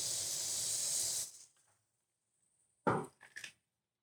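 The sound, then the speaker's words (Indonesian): Nitrogen sprayed onto a cold dessert makes a loud, steady hiss that lasts just over a second and then fades out. Two short bursts of sound follow. “Disemprot sama nitrogen.”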